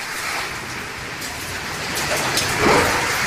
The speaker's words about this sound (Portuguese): Mais chuva. Esse é o som de São Paulo agora.